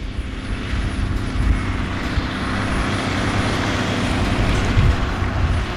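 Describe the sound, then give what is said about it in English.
Steady, loud low engine rumble of a blue landfill compactor with spiked wheels crushing trash, a continuous heavy drone that holds evenly throughout with no voices. “But the rest, the trash that does need to stay at the landfill, it meets the compactor.”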